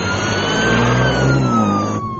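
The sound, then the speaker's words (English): A car speeds past with its engine revving, a loud, sustained mid-pitched roar whose pitch drifts slowly over the whole clip and drops slightly near the end. “Simmons, did you see that car? He was flying! He wasn't flying, he was driving. Well, no, I meant he was going fast.”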